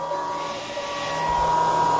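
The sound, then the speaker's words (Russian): A vacuum cleaner runs during apartment cleaning, a steady droning motor whine with a faint low rumble that swells a little louder toward the end, with no talk. “Отойди, ты мне со своим пылесосом мешаешь красить губы.”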